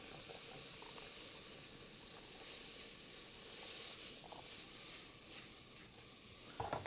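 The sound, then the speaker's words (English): Onions sweat in butter in a hot pan, giving a steady, even sizzling hiss that runs without a break and with no talking. “We're going to, what I refer to as sweat those down, cook those till they're translucent, nice and tender.”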